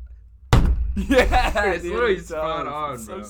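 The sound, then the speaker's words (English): Vine boom meme sound effect: one sudden, deep, booming thud, followed by chuckling and people talking. “You know, like in those like fucking cringy ass like Vine videos, you know, you'll randomly hear like that boom.”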